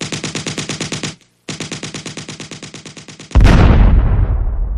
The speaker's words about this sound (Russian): Невольно дернувшись от неожиданного взрыва